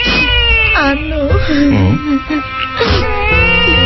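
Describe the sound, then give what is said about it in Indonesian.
A woman cries in loud, wavering wails and sobs, her voice sliding up and down in pitch with barely a break across the few seconds. “Ya, Nduk ya. Jangan nangis ya, Nduk ya. Makanya jangan nangis. Anak anakmu sampai terbangun gara-gara mendengar ibunya menangis.”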